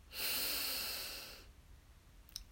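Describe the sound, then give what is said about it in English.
A single deep inhale through the nose or mouth, a loud, breathy rush that swells quickly and then slowly fades. Quiet follows, broken only by a brief faint click near the end. “And one last breath in, deep breath in”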